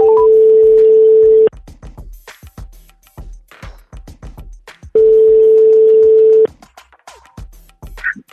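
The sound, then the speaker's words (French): Telephone ringback tone from a live call to a friend near Lyon: two long, steady, loud tones, each about one and a half seconds, separated by a gap of several seconds. “On appelle quelqu'un qui ne sait pas qu'on l'appelle”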